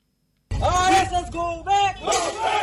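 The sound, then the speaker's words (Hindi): Protesters in Assam chanting "RSS go back" on the streets against the Citizenship Amendment Bill, a loud shouted chant of massed voices in a few rhythmic bursts after a moment of silence. “Assam में बीते कुछ दिनों से नागरिकता संशोधन bill के खिलाफ विरोध कर रहे लोग अब सड़कों पर उतर आए हैं। आरएसएस गो बैक के नारे लगा रहे लोग”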